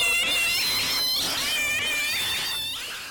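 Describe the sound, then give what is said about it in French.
Cats yowl and squeal in high, wavering, drawn-out cries that overlap continuously, loud and with no talk over them. “Ce n'est rien. Ce ne sont que des chats. Ce n'est pas grave.”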